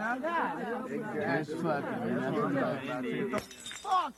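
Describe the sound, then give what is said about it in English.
A glass bottle breaks with one sharp, bright shatter near the end. Before it, several people talk over each other, and a short clinking trail follows the crash. “Don't break any more bottles while you're fucking down there,”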